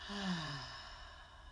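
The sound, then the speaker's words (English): A single soft exhaled breath during a guided breathing exercise. It is a faint, slightly voiced sigh that falls in pitch and fades away over about a second. “And our final breath together, we breathe in and exhale.”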